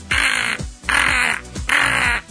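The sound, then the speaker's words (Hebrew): A man imitates a crow's caw, giving three harsh, loud, evenly spaced caws of about half a second each, with short gaps between them. “עורב, הנה עורב.”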